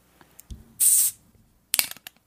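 A Corona beer bottle is cracked open. A low thud comes first, then a short, bright fizzy hiss, followed by a few small clicks.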